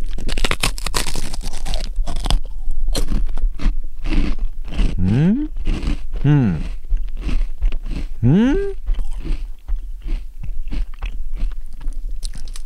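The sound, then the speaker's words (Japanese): Many crisp crunches come from someone biting and chewing a salted rice cracker made with giant isopod. The chewing is close and continuous, with a few brief voiced sounds in between. “オオグソクムシせんべいって、普通のね塩味っぽいせんべいっぽい、見た目ですけどもね、なんか粒々が見えるけど、これオオグソクムシかな。ちょっと食べますね”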